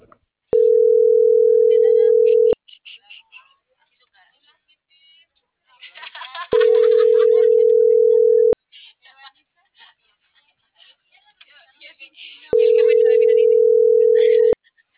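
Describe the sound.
An unanswered phone call's ringback tone sounds three times, each a steady two-second hum separated by roughly four-second gaps, while people talk in the pauses between rings.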